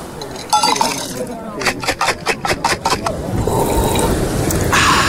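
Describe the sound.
Glasses clink in a toast for a summer radio advert, a rapid run of bright, ringing taps alongside speech, followed by a steady hissing, fizzing wash.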